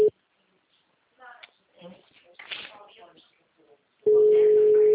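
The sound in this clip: A steady telephone call tone sounds while a number is being dialed. A short burst of it opens, then brief speech follows, and the continuous level tone returns loudly and holds to the end.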